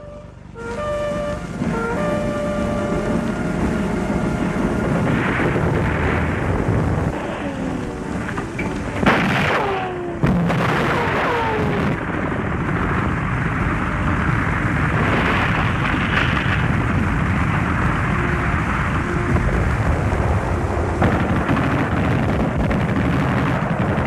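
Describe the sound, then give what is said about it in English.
German sniper gunfire from the roof of Notre Dame, heard as a few sharp, loud cracks clustered in the middle of a steady, rumbling wash of crackly noise, with no voices. “German snipers open up on the roof of Notre Dame.”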